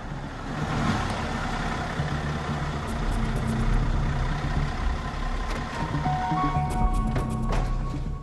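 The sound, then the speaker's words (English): Engine of a BMW 4x4 driving into the lower level of a car park: a steady, low engine rumble that runs throughout, with a few faint higher tones near the end. “A BMW 4x4 drives into a lower level of a car park.”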